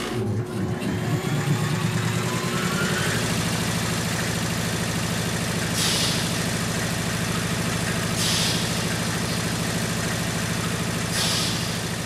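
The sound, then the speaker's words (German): A gas compressor pressurizing gas to 500 bar in a rig of pipework, valves and a steel wine tank: a steady, loud mechanical drone with a rising whine at the start and three brief hissing bursts. “Als erstes wird das Gas mit einem Kompressor auf 500 Bar verdichtet.”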